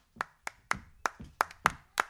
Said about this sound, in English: We're clapping in a different hand clap, but we're still in time, and we're still with rhythm, using that foot again as the offbeat like this.